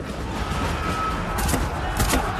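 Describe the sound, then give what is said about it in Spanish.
Armed guards in riot gear on upper prison walkways fire guns down at men below. A few sharp bursts crack out over a constant rumbling din. “Guardias armados con equipo antidisturbios salen a las pasarelas superiores y disparan a los hombres que están abajo.”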